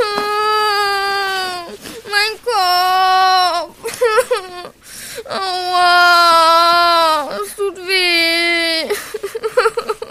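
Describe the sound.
A young child cries after hitting his head on a door frame and falling on a play mat: loud, sustained wailing sobs in long bursts, broken by shorter hiccuping sobs and gasps.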